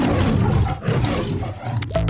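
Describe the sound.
A lion roars in the Metro-Goldwyn-Mayer film intro, with deep, rough growling in a few loud sustained bursts broken by short breaths, heard alone.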